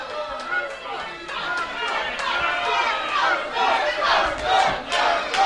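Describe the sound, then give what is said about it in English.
Wrestling crowd on its feet, cheering and shouting as a dense, continuous roar of overlapping voices and yells that swells toward the end. “The crowd is on their feet applauding the efforts of Federated.”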